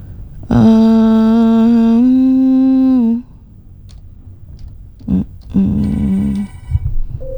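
A telephone ringtone announces an incoming call to a dangdut song-request line. One bright, steady electronic tone holds for nearly three seconds, then a shorter, fainter tone follows after a pause over low background noise.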